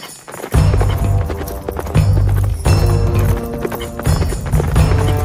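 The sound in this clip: Horses' hooves clip-clopping as riders travel on horseback at night in a dramatized scene set in autumn 1070 Pomerania, a loud, driving rhythm of low thudding hoofbeats that keeps up without pause throughout.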